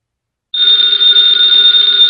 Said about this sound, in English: the ringing of that phone bell means mystery, adventure.